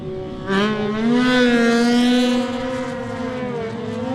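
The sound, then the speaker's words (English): A Ducati Supersport racing motorcycle engine passes during a race. A loud, high-revving harmonic drone swells in suddenly, holds strong for about two seconds, then eases and carries on more softly. “On the Ducati Supersport bike. Lovely. 47 should be next. Well, let's have a listen to this go.”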